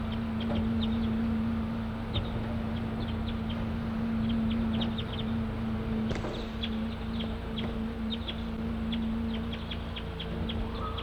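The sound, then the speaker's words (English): A flock of wild crossbills gives short, sharp chip calls in loose, irregular bursts throughout, over a steady low hum. “The recording of Flock of Wild Crossbills just came in.”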